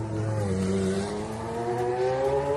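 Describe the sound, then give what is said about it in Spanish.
A McLaren Formula 1 race car engine gives a loud, continuous, rich harmonic roar that holds steady, then edges slightly higher in pitch over a few seconds, with no voices. “Ha adquirido el piloto asturiano una pieza de coleccionista, el McLaren MP44B de 1938, que pilotara Ayrton Senna, que suena así de bonito”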